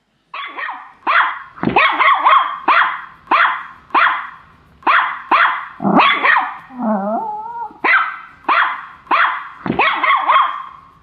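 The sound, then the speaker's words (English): A small chihuahua barking: many sharp, high yappy barks in a fairly steady rhythm, loud and without talk, broken midway by a short wavering whine before the barking resumes. “We sound more like a little chihuahua. You heard a chihuahua?”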